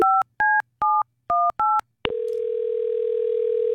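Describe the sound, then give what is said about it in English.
Telephone keypad tones as someone dials to call back a listener: five short, evenly spaced two-pitch beeps. A steady, continuous tone follows and runs to the end. “Let's call back one of the folks who texted in.”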